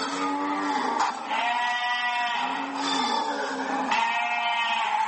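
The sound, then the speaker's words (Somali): Sheep and goats bleat at a livestock slaughterhouse in Djibouti, a few long, wavering, nasal calls following one another almost without pause, loud and clear with no talk. “marka xoolaha laga soo saaro gegada ambasiyada xoolaha waxaa loo soo gudbiyaa xarunta dabaxada lagu qalo xoolaha ee ku taalla magaalada Jibuuti”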